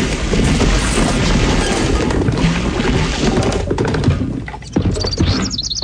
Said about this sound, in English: I think your U-Haul exploded when it hit the pond